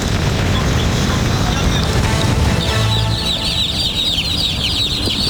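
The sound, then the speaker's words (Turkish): Many chicks cheep in a dense, high chorus that emerges midway through loud, steady noise. They are among about 700 chicks found at an intercity bus terminal after being transported illegally. “Antalya şehirler arası otobüs terminalinde Bursa'dan usulsüz şekilde taşındığı tespit edilen 700 civciv bulundu.”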